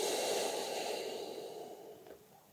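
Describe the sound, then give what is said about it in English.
A long, airy exhale from a breathing exercise meant to ease anxiety, soft and steady, fading gradually toward the end. “so as long an inhale as you can, and then at the end of it, take another really sharp, really hard one, as much oxygen as you're getting. So big inhale. And then a long exhale.”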